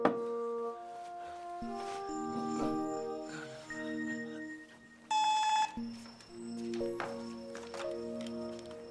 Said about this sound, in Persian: ساعتی ساعتی بابا دارن زنگ میزنن.